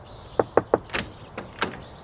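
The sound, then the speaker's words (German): Knocking on a back door: three quick, evenly spaced raps, then a few softer scattered thumps and clatters, with a faint steady whine in the background. “Wo soll ich jetzt am besten klopfen? An der Hintertür vielleicht?”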